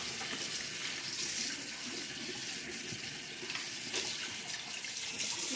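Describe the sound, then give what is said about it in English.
Tap water running while hands are rinsed, a continuous soft splashing hiss with a steady level throughout and no talk. “Finish rinsing your hands.”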